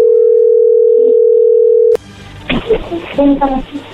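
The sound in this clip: A steady telephone tone sounds as a call is being placed. It holds one unbroken pitch for about two seconds, cuts off abruptly, and indistinct voices follow.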